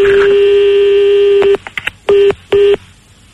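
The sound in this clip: A telephone number is dialed on a keypad during a call. A long steady tone is followed by a few short keypad beeps, the last two louder and evenly spaced.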